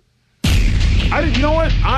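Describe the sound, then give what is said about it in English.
A staged explosion: a sudden loud burst that swells into a sustained roaring rumble, with a voice crying out over it. “No! Explosion! What are we going to do?”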